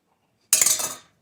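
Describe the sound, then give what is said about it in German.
Rice noodles, unrinsed and sticking together, are served onto a plate with a short burst of clinking utensil-on-dish clatter. Several quick clinks and scrapes run together for about half a second, then fade. “Wobei die Nudeln kommen jetzt auch wirklich gleich in den Teller.”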